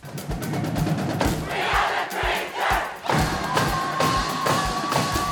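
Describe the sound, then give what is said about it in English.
A high school student section, the Traverse City West Bleacher Creatures, cheers loudly at a Battle of the Fans event, with a dense roar of crowd voices over steady, rhythmic heavy thumps. “That was the Traverse City West Bleacher Creatures, and that is your 2022 Battle of the Fans champion.”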